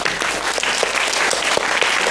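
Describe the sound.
Audience applause at a forum as a documentary director is welcomed on stage, dense, even clapping from many hands running steadily through the whole clip.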